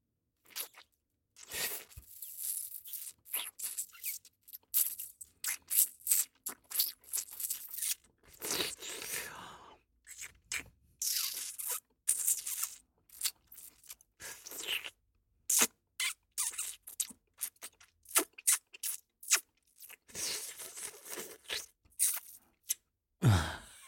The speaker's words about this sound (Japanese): 舐めて噛んで舐めて最後に吸う。